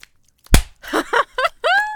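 A single sharp slap lands hard and abruptly, then a few short breathy vocal sounds follow.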